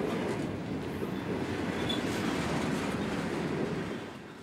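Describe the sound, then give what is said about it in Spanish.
A train passing with a steady, heavy rumble and rail clatter that holds evenly, then fades away in the last half second. “Parece que es un tren infinito, como es infinita la esperanza.”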